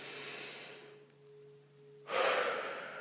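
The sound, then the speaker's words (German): A very deep breath during a meditation exercise: a long airy inhalation, a short quiet pause over a faint low hum, then a louder, breathy exhalation. “Nimm einen ganz tiefen Atemzug.”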